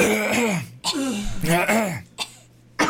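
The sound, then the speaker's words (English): Several people clear their throats in overlapping rasps and gravelly hums, loud and close, with a few short sharp bursts like coughs. “I would like everyone to just do some throat clearing just to get it out of your system.”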